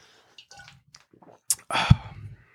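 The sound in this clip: Gulping down a drink, chugging it close to the microphone, with a few faint wet swallowing and squishing sounds followed by a louder, longer run of liquid gulps near the end.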